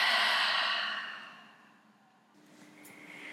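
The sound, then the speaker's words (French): A deep breath during a guided chakra meditation: one long breathy sigh of air, loud at first and slowly fading away, followed by near silence. “viens alors prendre une grande inspiration et souffler.”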